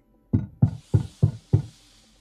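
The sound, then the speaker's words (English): Five evenly spaced knocks on the side of a ship's hull, each a loud, low thud with a short decay, struck alone in a steady rhythm with no voices. “I'm gonna knock back.”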